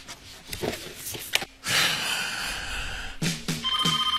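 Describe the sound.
A telephone rings briefly near the end with a steady electronic tone, after several seconds of rustling and handling noise.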